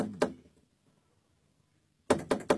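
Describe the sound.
Knocking on an imperial palace chamber door in a drama: a single sharp rap, a long quiet pause, then three quick, crisp knocks in a row, all fairly soft.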